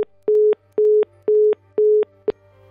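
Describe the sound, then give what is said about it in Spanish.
Busy tone after a dropped phone call: four identical steady mid-pitched beeps at an even rhythm, separated by short gaps, followed by a clipped fifth beep that cuts off almost immediately. “Se cortó la llamada. Se cortó.”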